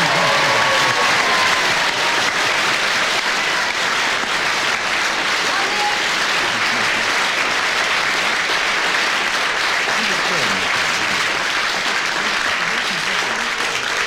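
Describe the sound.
A studio audience at a radio panel game applauds the winner with loud, sustained clapping. The applause stays thick and even from start to finish with no break.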